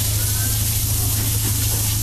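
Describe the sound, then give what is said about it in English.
Noodles stir-frying in a wok: flat and yellow noodles with egg and bean sprouts give a loud, steady sizzling hiss over a low, droning hum that does not let up. “And bean sprout. Oh, it's mixing the flat noodle and the yellow noodle too.”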